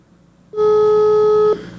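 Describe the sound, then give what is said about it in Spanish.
A telephone ringback tone sounds while a call is being dialed. One steady, loud tone lasts about a second, then gives way to a faint hum. “A ver, déjeme marcarle al número que ella me mandó. A ver, denme un segundo, por favor. A ver, aquí te estoy marcando.”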